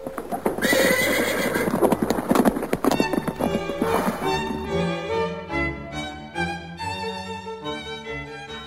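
Horse hooves clip-clopping steadily as the horse pulls a carriage to town on market day. A loud, rapid run of hoof strikes is followed by a long, wavering horse whinny.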